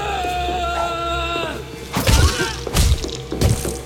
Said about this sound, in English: Somebody threw a flaming couch at me.